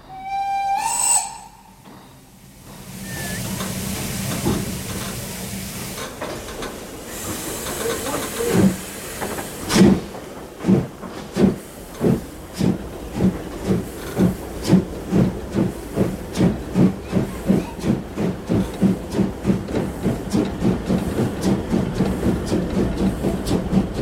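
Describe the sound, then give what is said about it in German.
A locomotive gives a short whistle as the train departs, followed by hissing steam and then a long run of loud, regular chuffs that continue steadily to the end. “Und wann fahren wir? Wenn die Lokomotive noch mal pfeift.”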